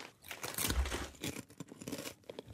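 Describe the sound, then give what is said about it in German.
Crisp crunching of a potato chip being eaten: irregular bursts of crackly bites and chewing, fairly quiet and heard alone without talk. “Soll ich mal kurz noch einen Chip essen?”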